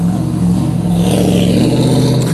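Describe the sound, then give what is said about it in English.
Cars drive by on a street and through a parking lot, producing a loud, steady engine and road rumble that holds constant throughout. “As usual, I'm out in the street and parking lot, cars are driving by.”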